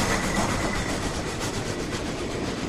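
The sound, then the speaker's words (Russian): A train passing overhead gives a continuous, loud, dense rumble and rattle with no breaks. “Султан черного дыма от пронесшегося над ним поезда накрыл Дэйва и Джеффри”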